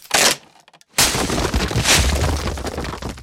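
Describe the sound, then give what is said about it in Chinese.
A tree branch at the treetop snaps with one sharp crack, then a loud, sustained crashing clatter follows as things tumble down. “哦不，树梢的树枝断了，全部东西都稀里哗啦的掉了下来。”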